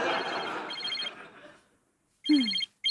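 A telephone rings in short electronic bursts with a bright, buzzy tone. Busier noise comes first, then a silent gap, then the ring sounds again in clipped repeats.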